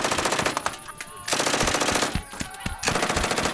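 Automatic gunfire rattles in loud, dense bursts that stop and start several times. No voices are heard over the shooting.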